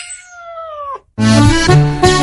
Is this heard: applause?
no